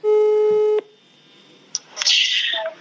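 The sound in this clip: Telephone tone while placing a call: one steady buzzing tone lasting under a second, then a quiet line with a few clicks and a brief burst of telephone-filtered sound as the call connects.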